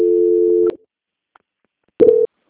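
Telephone tone sounds while a call is being transferred: a steady mid-pitched tone runs for under a second, stops, then returns as a shorter burst after a silent pause.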